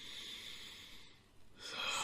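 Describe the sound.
Deep, conscious breathing during a guided meditation: airy breath noise runs steadily, dips briefly, then swells into a louder, fuller breath toward the end. No talking.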